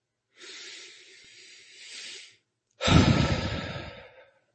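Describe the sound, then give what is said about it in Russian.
A deep breath is drawn in slowly as a soft, airy hiss. After a short pause it is let out in a louder, fuller exhale that gradually fades away. “сделайте глубокий вдох и выдох.”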